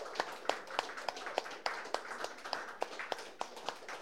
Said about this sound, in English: Give her a big hand, please.